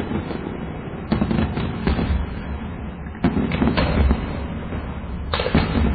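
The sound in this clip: A battery of 30 firework rockets fires one after another, with many sharp cracks and whooshing launches in dense clusters over a steady crackling hiss.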